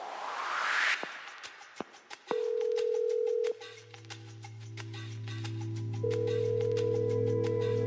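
Telephone dial tone heard while placing a call: a few clicks, then a steady tone that stops, a lower continuous tone underneath, and the higher steady tone returning near the end.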